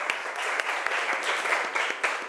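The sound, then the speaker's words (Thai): A class of students applauds a group's representative with brisk, steady clapping that runs throughout, dense overlapping claps with a few sharper accents. “เอาปรบมือให้ตัวแทนจากกลุ่มที่4ค่ะ”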